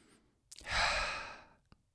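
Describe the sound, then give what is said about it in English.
A deep breath taken in through the nose and let out through the mouth: a brief intake, then one long, loud, sighing exhale that swells and slowly fades, with no talk. “Stop, take a deep breath, in through your nose, out through your mouth. We'll do it together.”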